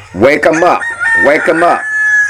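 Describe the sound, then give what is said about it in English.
Roosters crowing, one of three kept together: two loud, harmonic crows follow one after the other, each rising and then falling away, heard alone without talk. “I got three roosters, Red, Crow, and Benny.”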